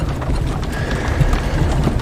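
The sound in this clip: Hooves of a horse pulling a carriage clip-clop in a steady, even rhythm over a continuous low rumble, moderately loud throughout.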